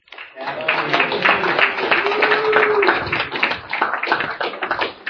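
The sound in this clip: Audience applause welcoming a speaker from Baltimore, Maryland to the stage: dense, sustained clapping from many hands rolls on at a steady loudness, tapering slightly near the end.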